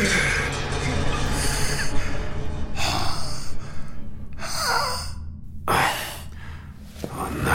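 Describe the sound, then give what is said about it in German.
A dying man draws his final breaths: a few harsh, airy gasps and sighing exhalations, spaced apart, over a steady low rumble. “Eve der Küster hatte seinen letzten Atemzug getan”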